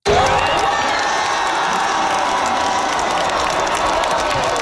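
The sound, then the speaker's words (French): Crowd cheering at the Vancouver Fan Festival after France's World Cup soccer win sends the quarterfinal-winning side to the semifinals: a dense, continuous roar of shouts, whoops and clapping, loud and unbroken from start to finish. “Alors voilà, ce que vous entendez, c'est la foule au Fan Festival de Vancouver après la victoire de la France, qui lui ouvre la porte d'ailleurs des demi-finales, oui, de la Coupe du monde de soccer.”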